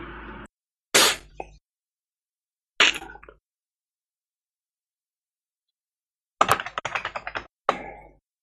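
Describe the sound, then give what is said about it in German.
Typing on a computer keyboard comes in short bursts of clicks separated by silent gaps, ending with a denser run of rapid keystrokes. “Ich will tippen”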